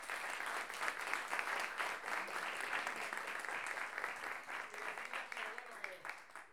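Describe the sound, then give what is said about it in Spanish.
Audience applause for the hosts of a masterclass held in a borrowed house: steady, dense clapping from a group, fairly faint and continuous until it thins at the end. “recibirnos, prestarnos la casa y permitir que esta clase suceda, así que un aplauso para ellos.”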